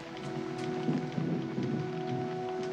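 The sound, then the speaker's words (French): Steady rain falls in a continuous, even hiss, fairly faint and unbroken throughout, with no voices. “La pluie. Il y a des fois où ça me donne le cafard.”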